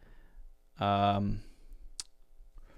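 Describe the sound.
Computer clicking while opening ChatGPT: one sharp, bright click stands out after a brief voiced sound, with a few faint taps around it.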